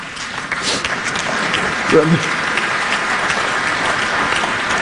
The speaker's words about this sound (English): If you have reached the point where you have to clap at that, you are doomed.